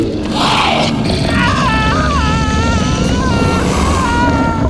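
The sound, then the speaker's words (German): Screaming from a person having a nightmare: wavering, high-pitched cries that rise and fall over a loud, dense, rumbling noise that runs the whole time. “Du hast geschrien. Wohl geträumt.”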